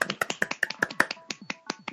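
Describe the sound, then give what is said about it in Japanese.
Clapping from a small group greeting the announcement of an early year-end party in Nagoya: many crisp, separate claps in a quick, uneven rhythm, heard alone for about two seconds. “ほーい、あ、拍手。”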